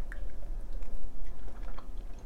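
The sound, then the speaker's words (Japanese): Soft, moist chewing of hot dashimaki tamago, a rolled dashi omelette, runs quietly and continuously with small squishy bites. “では最後試食したいと思います熱々ですね”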